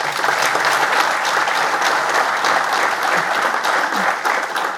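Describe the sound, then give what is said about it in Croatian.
Audience applause at a municipal day ceremonial session, honouring a clinical hospital centre: a thick, sustained wash of many clapping hands, steady and loud from start to finish. “Molim pljesak jedan.”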